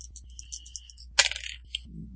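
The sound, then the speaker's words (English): Percentile dice tumble and clatter across a surface during a RuneQuest tabletop role-playing game: one sharp rattling burst, then a few quick, fading clicks as the dice settle. “See if the percentile dice are nicer to me this time.”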